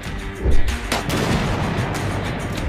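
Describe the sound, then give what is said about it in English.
AR-15 rifle gunfire from a campaign ad, the rifle mounted in the bed of a Hummer pickup truck in an open field: a few sharp, booming shots, the loudest near the start, over a dense rumbling wash that continues throughout. “It depicts her driving into an open field in a Hummer pickup truck, mounting an AR 15 rifle in the bed, and then shooting words which state things that she hates.”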